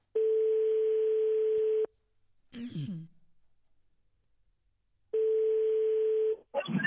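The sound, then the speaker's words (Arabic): A telephone rings on a call into a live phone-in line: two long, steady ringback tones separated by a quiet pause, with a brief breathy sound after the first ring and a burst of noise at the end. “الهاتف يرن”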